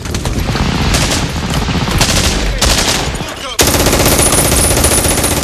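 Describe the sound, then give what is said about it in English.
A German machine gun fires on a beach as soldiers unload: loud, rapid, continuous bursts of gunfire with a dense rattling texture that sharpens partway through. “GIs take positions around them as the German machine gunner cuts down another unloading company.”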